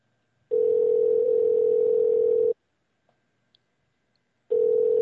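A telephone line tone plays while a call is placed: a steady tone for about two seconds, then a pause with a few faint clicks, then the same tone starts again.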